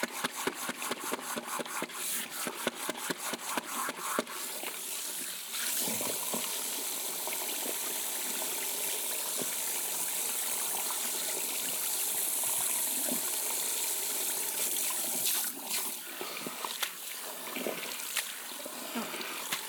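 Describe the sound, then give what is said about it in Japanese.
Warm water rinses hair from the roots during a hair wash: crackly rubbing and taps at first, then a steady, soft hiss of running water with occasional faint splashes, quiet throughout. “根元から丁寧に洗い流すのがベストで、キューティクルでフレッシュな髪の毛にする秘訣だからね。”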